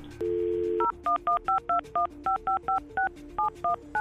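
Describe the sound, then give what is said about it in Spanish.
A steady dial tone gives way to a rapid string of many short, evenly spaced keypad tones as a telephone number is dialed, each beep a clear two-note electronic chirp. “Quédate en la línea telefónica, no te vayas. Vamos a marcar”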